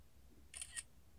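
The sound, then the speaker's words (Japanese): A camera shutter fires once to take a photo in a small recording room, a crisp, faint double click with no talk. “このめちゃめちゃ狭い録音のお部屋で写真を撮ります。”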